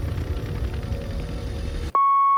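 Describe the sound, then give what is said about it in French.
An answering machine beep cuts in as a loud, steady electronic tone right after a dense, noisy passage stops abruptly, then holds unchanged to the end. “Laissez vos messages sur... Le répondeur.”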